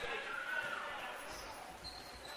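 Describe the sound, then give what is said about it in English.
A basketball is dribbled during an Axtell versus Wilcox/Hildreth girls basketball game, its faint bounces heard under steady play-by-play commentary. “and now dribbles the basketball”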